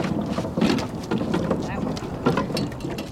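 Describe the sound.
Rowers pulling an eight-person boat on Tempe Town Lake: continuous rushing water and wind noise with soft, repeated splashing surges.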